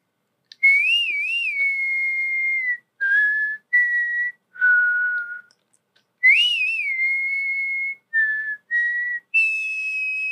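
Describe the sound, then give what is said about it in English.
A person whistles a cowboy standoff tune, clear and loud, with no other sound. Two matching phrases of four notes each open with a long, warbling note, followed by shorter, lower notes. “I can whistle the like cowboy standoff song.”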